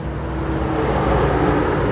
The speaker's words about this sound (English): It's loud, and each passing car adds to the mix of chemicals in the air over West Louisville.